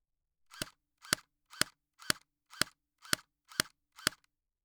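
Airsoft gun firing eight sharp, snapping shots at an even pace of about two per second, each a short, crisp crack followed by silence.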